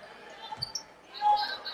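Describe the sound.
A basketball dribbled on the court during a high school game involving North Posey: a few dull, low thumps of the ball bouncing beneath a commentator's voice.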